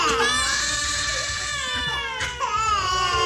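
A baby cries without pause, a loud, high-pitched wail with strained, tonal cries that waver up and down, including a sharp upward-bending wail near the end.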